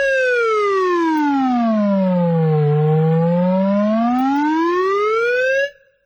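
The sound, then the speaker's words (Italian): A synthesized harmonic tone representing a circle glides smoothly downward in pitch, bottoms out midway, then rises back up in a symmetrical arc. It is one steady, loud, continuous tone heard alone for about five and a half seconds before it cuts off. “e poi per chiudere con questi esempi sonori farei sentire anche la circonferenza.”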